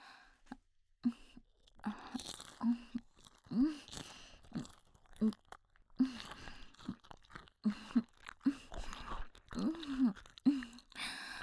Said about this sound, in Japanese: あなたの頭のてっぺんの骨もいただけてるわよ。はい、これが最後の一口。